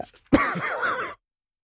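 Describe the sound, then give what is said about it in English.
A single sneeze bursts out abruptly after a brief faint intake, then trails into a short voiced, throaty tail that cuts off into silence, heard alone. “Oh, no, was that a sneeze? Was it the sneeze you can't do on air?”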